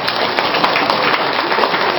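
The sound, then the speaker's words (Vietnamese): Applause from the audience at a Buddhist dharma talk, a dense, continuous patter of many hands clapping at a fairly steady level throughout, with no pauses. “Vỗ tay đi.”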